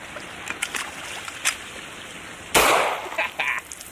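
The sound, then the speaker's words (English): A pistol loaded with pond scum fires one sharp, loud bang, preceded by a few faint clicks of handling and followed by brief, quieter mechanical taps. “I'm going to take a measured amount of pond scum and put it in the gun and see if it fires.”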